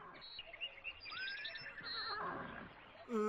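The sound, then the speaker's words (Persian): Horse neighing in a children's animal story set on the way to a farm: a faint, wavering, tremulous whinny rises and falls over about a second and a half, ending with a brief louder burst. “بله درست شنیدم، صدای اسب بود.”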